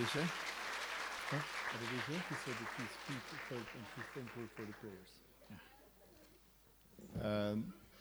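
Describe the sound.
Clapping from a seminar audience welcoming a guest, a continuous wash of applause under a speaking voice for about five seconds, then fading to near quiet before another burst of talk.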